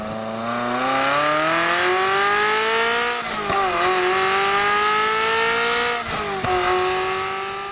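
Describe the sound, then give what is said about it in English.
A naturally aspirated V8 car engine revs hard, its pitch climbing steadily, then dropping twice at gear changes before rising again, loud and alone. “This, on the other hand, is what a naturally aspirated V8 sounds like.”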